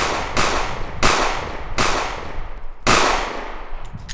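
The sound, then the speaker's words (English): Four sharp gunshots ring out on a street at uneven intervals, each a loud, abrupt crack with a short decaying tail, and no voices between them. “and that's when the shots rang out.”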